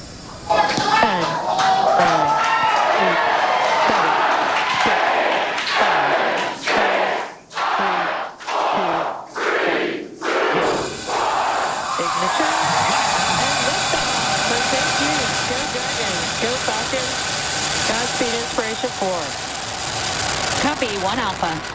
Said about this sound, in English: This is what it sounded like as it blasted off from NASA's Kennedy Space Center in Florida on Wednesday.